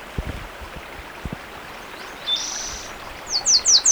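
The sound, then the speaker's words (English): Warbler song on a very windy day: a few short, high chirps and a brief thin whistle rise above steady wind rumble, with the chirps growing louder near the end. “The warbler singing.”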